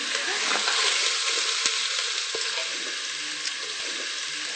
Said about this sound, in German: Und dann tun wir mit Gemüsebrühe ablöschen. Hörst du das?